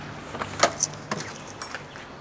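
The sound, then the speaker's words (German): A key jingles and clicks as it unlocks the second lock on a back-entrance door to a cheese business's storeroom: a few faint, quick metallic rattles and ticks with no voices. “Dann ist es noch ein Schlüssel, das zweite Schloss.”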